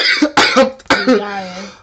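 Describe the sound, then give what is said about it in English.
Coughing, a few loud, harsh coughs in quick succession, the last one longer, rougher and partly voiced as it trails off. “I'm really am coughing now.”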